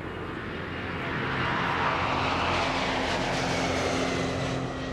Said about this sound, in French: C'est sans encombre que terminera le vol d'essai numéro 3 de l'A380 aux commandes de Claude Lelay et Jacques Roset.